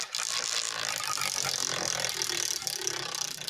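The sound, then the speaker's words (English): A prize wheel spun to pick a topic gives a dense, steady rattle of rapid clicks that runs for about three and a half seconds with no talk over it. “I'm going to spin the wheel. I'm going to spin the wheel so we can get our topic for this evening.”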